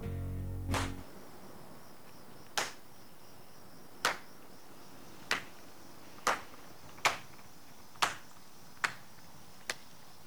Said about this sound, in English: A guy looking on starts to clap.